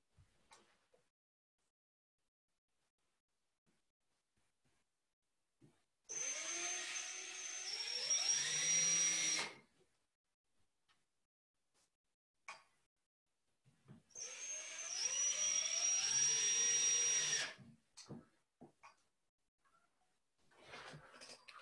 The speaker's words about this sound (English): Bear with me as I see if I can attach the next lot of screws into this hinge.